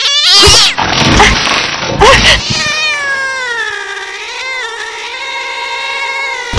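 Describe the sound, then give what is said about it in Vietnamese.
A black cat bristling at a genuine leather handbag, with loud raspy hisses and spits first, then a long, drawn-out, wavering yowl. “con mèo xù hết lông lên như để đối phó với chiếc túi da thật của cô”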